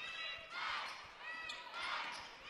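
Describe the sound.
A basketball is dribbled on the court during a high school girls' game, a quick, regular run of soft thumps under swelling crowd noise and voices, all faint.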